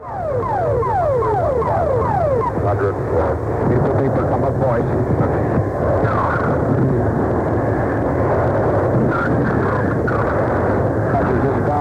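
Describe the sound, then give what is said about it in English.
An emergency locator beacon goes off after an aircraft shootdown, a rapid run of repeated rising electronic tone sweeps that soon sink into a loud, dense rumbling roar. “Hear that emergency locator beacon go off? That means someone got out.”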